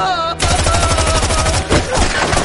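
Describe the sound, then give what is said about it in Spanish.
Gunfire from several shots outside a bar in a war film, a loud, dense volley of sharp cracks in rapid succession that blurs into continuous, harsh bursts. “se gira y dispara frente a la puerta del bar. Recibe varios disparos en el pecho.”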